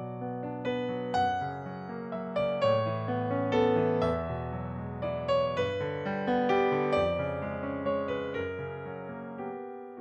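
Instrumental music composed for Juneteenth, a flowing series of layered tonal notes and chords with steady, distinct note attacks at moderate loudness, with no voices.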